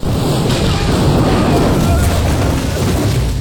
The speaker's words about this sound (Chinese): Michael 拆开房门，利用聚甲醛制作简易炸弹，堆在门口。警方从监控发现十六楼有人，立马一拥而上，被炸的是昏迷不醒。